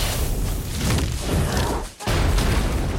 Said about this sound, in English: another fireball is launched and misses her by mere inches, exploding against a tree